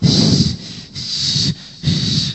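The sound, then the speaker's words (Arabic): A voice imitates wheezing, laboured breathing. Three drawn, rasping breaths each carry a strong whistling hiss, with short gaps between them. “العلامة الثانية وجود صفير أثناء التنفس، لأن الهواء ما يخرج بشكل كافي فيكون التنفس تقريبا بهذا الشكل. شوف راح أمثل شوي، صعوبة إضافة إلى صفير”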